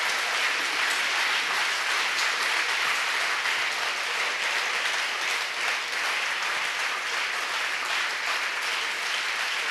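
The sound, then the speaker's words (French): A church audience claps for the Lord, a dense, steady stream of applause holding an even level for about ten seconds without a break. “Acclamons le Seigneur. Let's clap for the Lord. Acclamons le Seigneur. Let's clap for the Lord. Acclamons le Seigneur. Let's clap for the Lord.”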